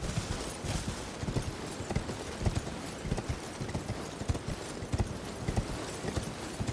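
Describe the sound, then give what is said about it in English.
Horse hooves clip-clop in a video game, a quiet, quick, steady rhythm of many hoofbeats repeating throughout without any talk. “We're gonna summon our horse.”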